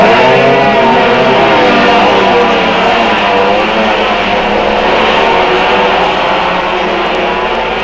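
Racing motorcycles of a small class, each around 8 horsepower, roar off the start line together in a dense, loud, continuous engine blare that stays steady throughout with no voices.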